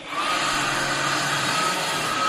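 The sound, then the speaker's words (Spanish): Steady, loud whirring of a small toy leaf blower running, a continuous airy motor hiss that holds an even level throughout with no pauses. “Es el soplador de juguete.”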